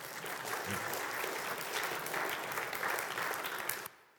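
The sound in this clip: An audience applauds to welcome a speaker onto a stage: dense, continuous clapping at an even, moderate level that cuts off abruptly just before the end.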